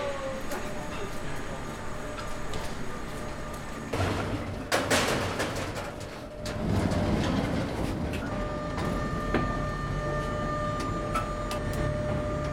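A construction-site lift arrives at a concrete apartment building site, giving off a steady mechanical whir and rumble. Rattling knocks come midway, and the machine noise then swells and holds to the end.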